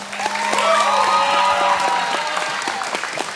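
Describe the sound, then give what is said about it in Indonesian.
Audience applause after a child's dangdut song at a junior singing competition show: a steady, dense clapping that swells quickly and stays loud for the whole clip. “Waduh, tepuk tangan tuh A Irfan dulu dong.”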